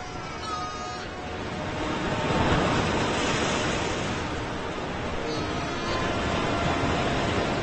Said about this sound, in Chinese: 弱小的身躯就像落叶一样被海水抛来抛去，毫无招架之力